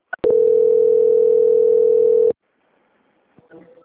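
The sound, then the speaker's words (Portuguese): A telephone call-transfer tone: a single steady, mid-pitched beep held for about two seconds after a brief click, then a faint line noise. “Só mais um minutinho, tá bom? Vou transferir a ligação. Transferência.”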